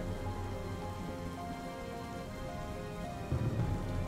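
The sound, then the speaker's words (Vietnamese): Rain falling in a steady, dense patter of drops that stays even throughout, with a slight swell near the end. “Ông Lâm đang đứng trước cửa sổ ngắm nhìn từng hạt mưa rơi.”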